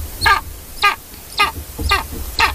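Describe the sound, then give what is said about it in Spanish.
Harsh, caw-like calls of a bird that is an endangered species in Spain, five calls at a steady, even pace, each short and raspy, over a low background hum. “Este primer animalillo que traigo es un ave”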